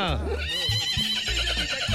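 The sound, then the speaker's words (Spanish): A mare on a farm whinnies with a loud, high neigh that falls in pitch, followed by lower, rough snorting pulses. “les voy a mostrar a la yegua de acá, de las mañanas de 1, de Radio 1, la de 1, ¡Sandrita!”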